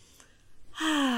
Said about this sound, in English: So we're going to inhale through the nose,